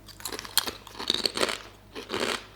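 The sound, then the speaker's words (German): Crunching of hard, extra-crispy potato chips being bitten and chewed. Sharp, crackly crunches come in a few quick bursts with short pauses between them. “Soll ich mal richtig ins Mikro rein? Also, die sind viel... Schmeckt nach Erde. Die sind viel knuspriger als bei uns Chips irgendwie, so härter, knuspriger.”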